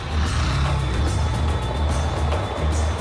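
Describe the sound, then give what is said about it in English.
A military convoy drives along a muddy woodland track, giving a steady, loud, low engine rumble mixed with continuous road and tyre noise. “A military convoy makes its way along a woodland track.”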